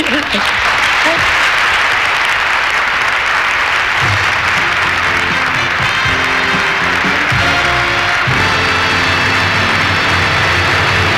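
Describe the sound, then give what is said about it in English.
Audience applause during a standing ovation, a loud, continuous wash of clapping that stays thick and even throughout. “An interesting moment. Got the one standing ovation person in the audience.”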